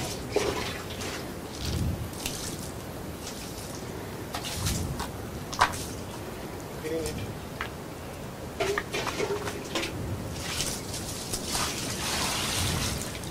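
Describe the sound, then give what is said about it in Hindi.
Water is poured during a Hindu puja ritual, with soft intermittent splashes, trickles and drips that come and go at low level over about thirteen seconds, with no talking. “More water.”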